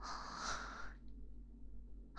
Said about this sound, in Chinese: 身体也扭来扭去。怎么了？是不舒服吗？呼吸也这么急促，